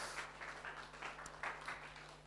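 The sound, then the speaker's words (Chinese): A church audience claps hands during a Chinese-language sermon, a faint, uneven patter of many hands with a few louder swells, over a low steady hum. “拍手把荣耀归给耶稣。”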